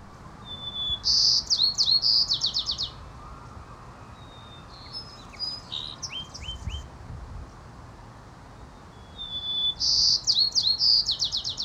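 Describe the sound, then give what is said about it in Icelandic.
Song of white-crowned sparrows in San Francisco: two loud phrases, each a clear opening whistle followed by a rapid buzzy trill, with a fainter, more broken song between them over a low steady background hum. “Í borginni San Francisco býr tegund af litlum grábrúnum finkum sem kallast kúftillingar. Söngur þeirra hljómar svona.”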